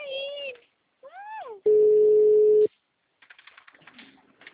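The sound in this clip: A single telephone ringback tone on an outgoing call sounds as a steady, unwavering hum lasting about a second. Short vocal sounds come before it, and softer clicking noises follow.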